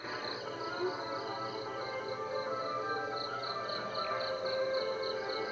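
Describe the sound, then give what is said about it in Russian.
Crickets chirp through a night in India, around five in the morning: a dense, steady, high insect trill with regular pulsing, continuous and fairly loud, with no voices. “сейчас вы слышите звуки индийской ночи.”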